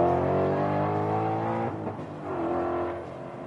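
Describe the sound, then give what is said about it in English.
V8 racing car engines roar on a circuit in a continuous, loud, throaty drone, dipping briefly midway before the revving picks up again. “So you can probably hear the sound of the V8s in the background. How lovely is that? As they are out on the circuit.”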